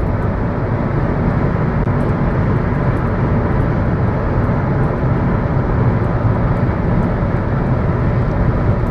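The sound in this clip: Steady engine and road rumble from a car being driven, a dense, unbroken low roar that holds at an even level throughout with no voices.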